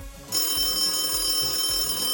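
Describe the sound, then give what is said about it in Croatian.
A telephone rings in a radio studio as a guest is called on air. After a brief quieter start, a bright, continuous electronic trill sets in and carries on steadily at a moderate level with no voices. “Evo, telefon je zazvonio”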